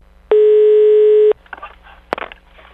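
A steady, mid-pitched telephone tone holds for about a second as a call is placed, then gives way to faint handling noises and a sharp click on the line.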